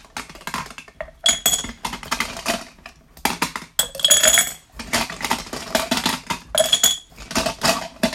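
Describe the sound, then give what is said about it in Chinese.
Glass marbles dropped into a container, clattering and clinking in many dense, irregular bursts of bright rattles with short gaps between them. “看到有很多的玻璃珠放进去了，对吧？”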